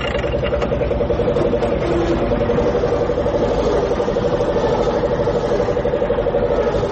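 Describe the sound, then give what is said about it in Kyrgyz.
A car engine idles while someone sits inside the vehicle, giving a steady mid-pitched hum with a constant, even level throughout and no talking. “Азыр мен машинага отуруп турам.”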